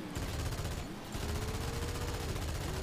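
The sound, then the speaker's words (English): Rapid gunfire in a video game, a dense, continuous rattle of shots over a low steady hum, holding an even loudness throughout. “Oh shit, he's shooting at us.”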